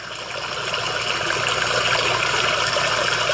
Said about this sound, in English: Hey Siri, play stream sounds. Here's stream. So there's your little creek or a stream.